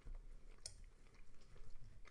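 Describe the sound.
Quiet chewing of a bite of overcooked steak: soft, squishy, irregular mouth sounds at a low level, continuing steadily with no talk over them.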